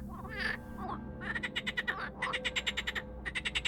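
A black frog croaks in bursts of rapid, clicky pulses, faint and alone, with several quick runs of calls separated by short pauses.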